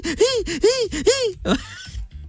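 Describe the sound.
A voice imitates an old mobile phone gasping for breath. It makes three loud, wheezing gasps in a row, each one rising and then falling, and ends with a shorter, rougher rasp that fades out.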